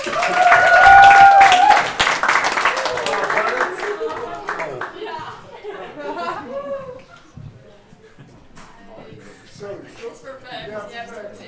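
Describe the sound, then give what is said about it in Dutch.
Audience applause welcoming a poet onto the stage at a literary poetry evening, loud and full for about two seconds, then thinning out as people start talking and a few light chuckles come through. “geef een daverend applaus voor Asmea.”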